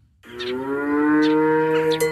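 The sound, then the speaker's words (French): A dairy cow moos on a family farm with a herd of 50 dairy cows at Saint-Just-de-Clay in Isère. One long, loud, low moo holds steady for about two seconds, with no voices. “En arrivant à la ferme de Manne, à Saint-Just-de-Clay, une frêle silhouette se cache au beau milieu des 50 vaches laitières de l'exploitation familiale.”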